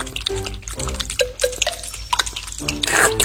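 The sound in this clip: Quick watery gulps and drips mark a frog drinking water very fast, a busy run of bubbly liquid sounds mixed with short tonal blips.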